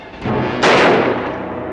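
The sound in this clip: A single gunshot fired during an exchange of fire, a sharp, loud crack about midway that decays over roughly a second above a steady, noisy background.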